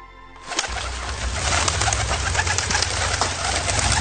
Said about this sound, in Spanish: ¿Dónde guardabas esa paloma